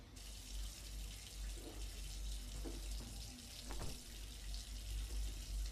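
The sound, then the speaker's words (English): A running shower gives a faint, continuous hiss of spraying water with a low hum beneath it. It stays steady throughout, with no talk. “gets into the shower”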